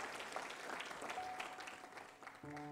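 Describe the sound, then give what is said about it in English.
An audience in a church claps steadily in a fairly faint, continuous patter of applause, and a sustained musical chord enters near the end. “You can clap your hands one more time to the Lord.”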